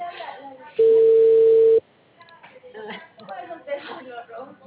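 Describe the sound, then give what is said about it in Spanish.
A steady telephone dial tone sounds for about a second as a call is placed. It is a loud, unbroken single pitch between stretches of Spanish speech before and after it. “Hago esta llamada y le digo a Yonela.”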